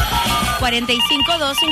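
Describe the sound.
A telephone rings with an incoming call to a radio call-in show. The ring is bright and warbling, with shifting tones repeating in quick succession, and stays loud throughout.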